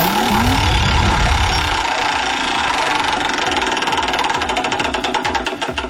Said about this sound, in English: You ready to spin that wheel?